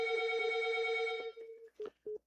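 A telephone rings with an incoming call: a steady, buzzy electronic tone holds for about 1.7 seconds, then two short bursts at the same pitch follow after brief gaps.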